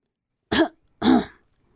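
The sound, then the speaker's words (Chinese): A throat clearing in two short, rough bursts about half a second apart, fairly loud and with no talk around it. “就清了清嗓子说道”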